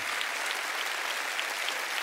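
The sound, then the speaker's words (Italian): Applause for the authors of a comedy show from a studio audience, with steady, even clapping from many hands that is fairly soft and continuous throughout. “Estendiamo l'applauso a tutti gli autori, ragazzi!”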